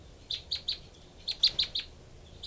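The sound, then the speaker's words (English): Two birds calling back and forth, a female and a responding male: short, high, bright chirps, first a quick group of three, then a group of four after a pause, and one more at the end. “Both birds here.”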